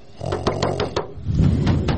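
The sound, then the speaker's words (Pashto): Knocking on a door: five quick, sharp raps in a rapid run, followed by a duller, rumbling thump. “سړی جکس څوک دروازه ټکوي؟”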